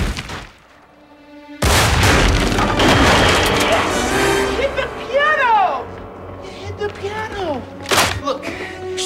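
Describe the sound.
Gunfire in a cartoon house chase: a sudden loud blast opens a sustained roar of booming shots, and a second sharp burst comes later, while excited voices shout over the noise.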